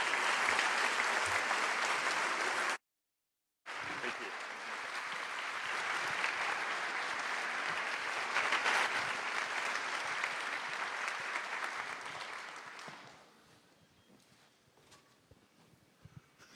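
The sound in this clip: An audience welcomes two speakers onto a stage at an evening event in Madison with dense, steady applause. It holds for about twelve seconds, with a brief silent break early on, then dies away into quiet.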